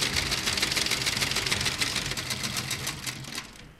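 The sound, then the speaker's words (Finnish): A quiz-show calculator starting up as a sound effect, a fast mechanical rattling whir that runs steadily and fades at the end. “ja nyt mä käynnistän ton kalkulaattori, ja katsotaan, mitä sieltä tulee.”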